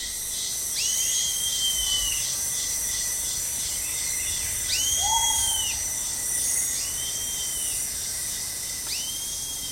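A tiny male cricket, about a centimetre and a half long and coloured like dead leaves, stridulates by rapidly opening and closing its raised first pair of wings, making a continuous high, shrill trill with repeated brighter chirps over a steady hiss.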